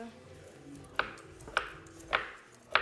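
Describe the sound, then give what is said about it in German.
Four sharp knife chops from a large kitchen knife cutting food on a board, evenly spaced and crisp against a low background hum. “ich schneide daheim normalerweise nicht mit so großen Messern. Das ist total gewöhnungsbedürftig.”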